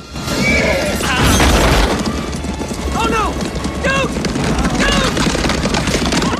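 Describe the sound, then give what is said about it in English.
Horses galloping past with dense, thudding hoofbeats and repeated high whinnies, loud and continuous throughout, with a heavy low rumble beneath. “The horses thunder past them as they head for cover.”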